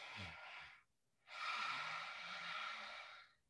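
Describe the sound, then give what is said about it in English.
A voice imitates a goblin-like breath as a vocal exercise: a short breathy exhale, a brief silence, then a longer, hissy, rasping breath held for about two seconds before it cuts off. “The way I like to think of doing that is it's almost like a goblin sort of breath.”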